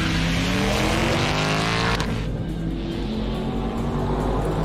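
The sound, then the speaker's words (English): A Ford Mustang, a 2024 California Special with a manual transmission, roars loudly and steadily, its engine note breaking about halfway through as the driver shifts gears. “It's a manual. Listen to the shift.”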